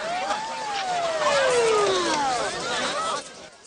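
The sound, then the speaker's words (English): Police patrol car sirens sound as the cars drive through a gathered crowd. Several loud wailing tones overlap and glide downward in pitch, continuous over a rumbling vehicle background. “Crowds have gathered, and the cops have to clear them to allow the patrol cars through.”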